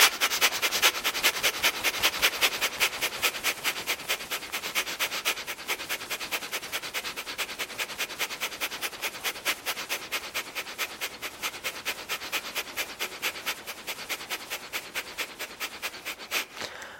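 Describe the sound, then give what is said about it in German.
Forceful breathing during a yoga breath exercise: many quick, evenly spaced breath pulses in a steady rhythm that holds for the whole stretch, with no talking. “Tief mit Ujjayi einatmen, tief mit Ujjayi ausatmen. Und noch eine Runde. Einatmen Bauch hinaus.”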